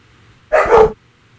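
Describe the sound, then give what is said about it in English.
A dog gives one short, loud, harsh burst of barking that breaks a quiet background and stops abruptly. “Sorry about the dogs, hold on.”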